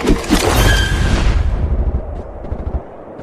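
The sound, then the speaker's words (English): Gunfire from an Uzi and a Sig Sauer pistol in a distant firefight: loud crackling bursts of shots that die away into a low rumble after about a second and a half. “What was that? The distant chaos brought Mildred, Christy, and Dean to their feet. That was the Uzi! And I think it was Dad's Sig Sauer!”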